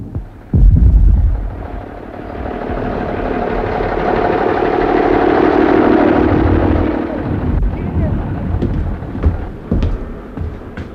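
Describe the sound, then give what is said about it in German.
Distant cannon fire thundering near the front toward Madrid: a sudden heavy boom opens a long, loud, low rumble that swells and slowly fades, with a few sharper cracks near the end. “Dieser Kanonendonner.”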